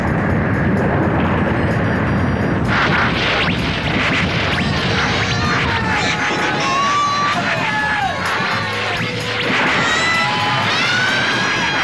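Thunderous eruption effect of Mount Fuji, a dense continuous roar packed with crashing impacts and booms, with shrill pitched cries and sweeping tones rising over the churning noise in places.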